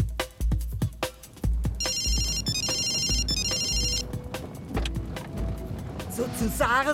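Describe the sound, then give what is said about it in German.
A mobile phone rings with a few bursts of bright, high-pitched electronic tones, sounding among thumps and other clattering noises. “Nimm dein Griffel vom Handy, du gehst da nicht mehr ran.”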